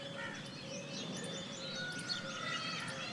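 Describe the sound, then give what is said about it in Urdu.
Birdsong at 5 a.m. on a summer morning in a park, with doves cooing and a koel calling far off, heard as steady, layered chirps and high whistled notes running throughout at a moderate level. “یہ فاختاؤں کی آوازیں, یہ دور کہیں کوئل کی آواز,”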